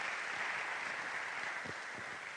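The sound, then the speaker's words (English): Applause from an audience at a talk, faint and continuous, with many overlapping claps blending into a soft, even hiss across the whole stretch. “I'd like to give a round of applause right here to Dr. Perry, please.”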